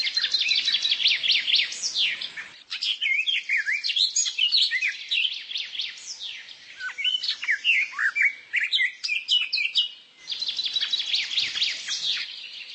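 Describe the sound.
Birdsong recorded in nature: many birds chirp, trill and whistle in dense, overlapping high calls that run almost continuously, with brief lulls near the start and near the end.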